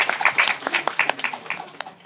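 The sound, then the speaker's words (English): Applause breaks out for newcomers at a church picnic: many quick, crisp hand claps patter in an uneven burst, fairly light and thinning slightly toward the end. “let's give everyone that's a newcomer today to this picnic a round of applause for coming today.”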